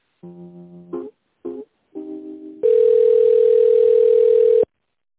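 Telephone line tones during a call transfer to a company department: a few short, loud beeping tones, then one steady tone lasting about two seconds before cutting off abruptly.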